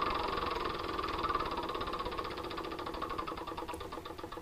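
A spinner wheel turns in a board video game, giving a fast buzzing ratchet of mechanical ticks whose spacing gradually widens as the spin slows over a few seconds.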